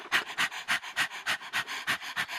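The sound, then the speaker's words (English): People imitating a dog panting with their tongues hanging out, their voices making a quick, steady run of breathy huffs, many in a row, even and fairly loud, with no talking. “now if you were a dog, show me how you would hang out your tongue and pant.”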